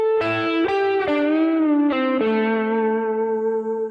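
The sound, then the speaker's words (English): Electric blues guitar lick with effects on the tone: a string bend rising and returning, then a pull-off, ending on the root A at the seventh fret of the fourth string. A few sustained notes slide in pitch, and the last note rings out and slowly fades. “I'm doing a bend up, bringing it back down, and then I'm doing a pull off to the five.”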